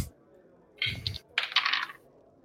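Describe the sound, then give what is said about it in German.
Dice rolled onto a table during a tabletop role-playing game, giving two short bursts of bright rattling clatter in quick succession against a quiet background. “Dann würfelt bitte.”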